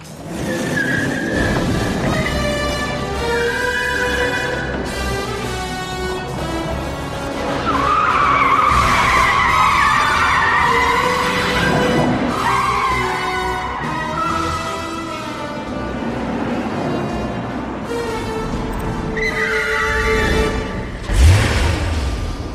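A car driven from a handheld control pad skids hard, its long wavering tire squeals and engine roar running throughout with a few louder surges. No voices are heard.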